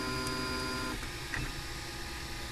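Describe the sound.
A 3D printer starts up to print plastic scale models of historic buildings, giving a steady mechanical hum with a tonal whine that shifts about a second in, then continues evenly.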